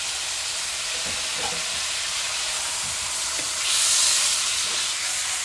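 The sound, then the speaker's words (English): Food fries in a very hot pan while it is stirred, giving a steady, loud sizzling hiss with a few faint knocks from the stirring and no talk. “Our pan is really hot still. That means this is cooking really, really fast.”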